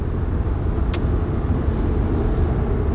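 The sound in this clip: Steady engine and road rumble from inside a car on the move while it pulls out to overtake, a dense, even noise throughout with no talking.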